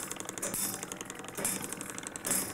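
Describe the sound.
An engraving machine's moving cutting steel scraping a stepped pattern, only micrometres deep, into a lacquered, firmly clamped clock dial, producing a steady, fine rattling hiss with a few brighter, rhythmic swells.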